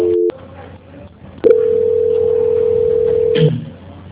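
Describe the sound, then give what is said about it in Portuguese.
A telephone tone on a line while a call is being transferred: a brief tone, a short gap, then a steady single-pitch tone held for about two seconds before a quick lower blip and faint line hiss. “Só fica na linha que eu vou estar transferindo para ela finalizar. Transferência.”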